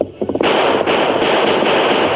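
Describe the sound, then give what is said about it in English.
Gunshots from an outlaw's gun during a horseback chase: a few sharp cracks at the start, then a loud, dense burst of sustained noise that carries through to the end. “We'll keep just out of range until he empties his other gun. He won't be able to reload”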